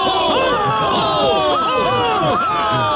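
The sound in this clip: A loud crowd cheering and whooping for Quasimodo, hailed as the fools' pope as the procession arrives at Notre Dame, with many overlapping voices shouting in rising and falling calls.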